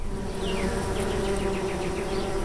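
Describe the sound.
Honeybees buzzing around their hives on a farm, a loud, unbroken drone with a steady low hum beneath a bright, dense whir of many wings that stays even throughout.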